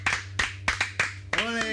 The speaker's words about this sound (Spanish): Ahora ya se ha acabado la sesión ya de todo. Un aplauso.